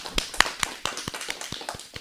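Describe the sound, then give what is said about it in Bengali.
Clapping for a child singer after a song: sharp, separate claps in an uneven rhythm, several strong hits followed by lighter ones. “বাহ খুব সুন্দর হয়েছে, আমাদের ছোট্ট বন্ধুর জন্য এবারে জোরে একটা করতালি হয়ে যাক।”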